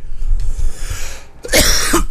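A throat tickle sets off a short, rough cough, a single loud burst after a low, muffled rumble.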